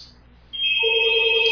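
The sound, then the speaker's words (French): A telephone rings with a steady electronic tone that starts suddenly after a brief quiet moment, layered pitches stacking in and holding loud and unbroken to the end. “Et le téléphone sonna, comme d'habitude.”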